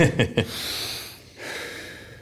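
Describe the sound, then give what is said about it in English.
A deep breath during a hard weightlifting workout: a couple of short, sharp sniffs, then a long, breathy hiss of air drawn in and a second long, steady breath that is fairly loud. “I'm now going to take a deep breath and not pass out.”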